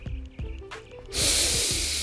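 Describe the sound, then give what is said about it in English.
One slow, audible breath: a soft, airy hiss that swells after a quiet start and holds to the end, heard alone without talk. “And I breathe.”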